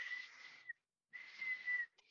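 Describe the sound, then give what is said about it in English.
A guard's small watch whistle shrills in two sharp, steady, high blasts of under a second each, separated by a short silence, with a faint chirp after the second. “And as he's blowing his little watch whistle”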